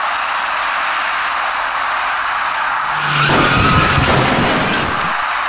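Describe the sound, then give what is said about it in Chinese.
Tires screech as a silver passenger car turning right collides with an electric bicycle ridden against traffic in a motor-vehicle lane. Steady road noise runs throughout, then a loud skid squeal and a rough burst of noise rise midway and fade. “这辆躲闪不及的银色小客跟那位电动自行车骑车人发生了相撞事故。”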